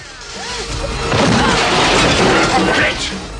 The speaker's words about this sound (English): John grabs the phone booth with Sully inside and shakes it, shattering the glass. He picks up the whole booth and throws it as the guards try and grab him.